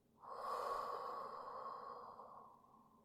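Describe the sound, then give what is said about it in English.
A slow, deep breath during a guided relaxation exercise: one soft, airy stream of breath that swells quickly, holds, and then gradually fades away. “Deep breath. And out.”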